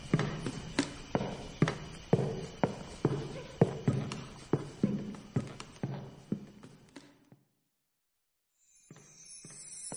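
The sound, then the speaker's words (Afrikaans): Footsteps climb stairs in the dark, a long, steady run of many evenly spaced, hollow, thudding steps that stop abruptly, then resume fainter after a pause of about two seconds. “Masha en Lennard het in die donker nag die trappe geklim en hul weg gevind na 'n hele gang vol skatte.”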